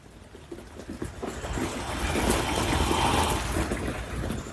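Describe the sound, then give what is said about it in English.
Rain falling gently onto the ground, a soft continuous patter and hiss that swells slightly louder through the middle before easing. “There is something magical in the sound of the rain gently falling onto the ground.”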